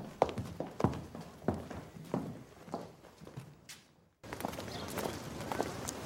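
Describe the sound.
Footsteps of several people walking away from a cordon at a crowd gathering: a steady series of heavy, distinct steps for about four seconds, then a brief silence followed by dense, continuous shuffling noise.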